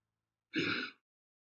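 A single deep breath, taken as part of a guided breathing exercise: one soft, breathy exhale about half a second long, heard alone against silence.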